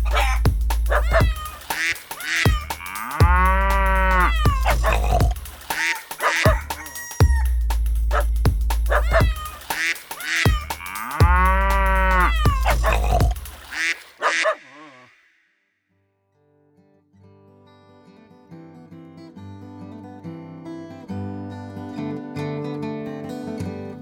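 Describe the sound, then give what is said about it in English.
Farm animal sounds of the countryside at night: many repeated calls, dog-like barks and duck-like quacks, for about fourteen seconds, then a brief silence before soft music begins. “She loved the farm and could go to sleep at night, listening to all the beautiful sounds of the country.”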